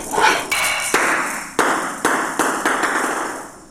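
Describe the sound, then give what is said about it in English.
Sharp ball strikes in a table tennis video game, several crisp pinging hits at irregular intervals, each ringing briefly before fading. “So I'm gonna move with my arrow keys and hit the space bar to hit the ball back. Basically how you play this game.”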